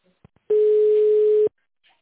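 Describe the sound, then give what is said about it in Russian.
A fax machine tone while a fax is sent over a phone line: a single steady, mid-pitched beep lasting about one second, preceded by a few faint clicks. “Для отправки факса нажмите «Старт» на вашем факсимильном аппарате. Так, отправляю.”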